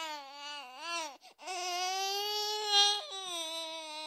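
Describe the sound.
A voice imitates a crying baby with a sustained, wavering wail. The cry breaks briefly near the middle, then resumes steadily with a short louder swell before trailing on.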